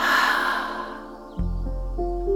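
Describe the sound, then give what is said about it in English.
A long, airy breath during a slow, calming breathing exercise, fading gradually over about a second, after which soft sustained tones carry on. “We can use our flower breath to help us get settled. Breathe in and breathe out.”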